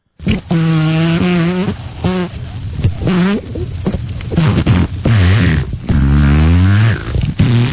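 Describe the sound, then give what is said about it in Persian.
Comedic sound effect of a falling satellite with a broken engine: loud, wavering harmonic tones arriving in several bursts separated by short gaps, continuing for the whole stretch without speech. “موتورش خرابه. داره سقوط میکنه. آره داره از اونجا سقوط میکنه.”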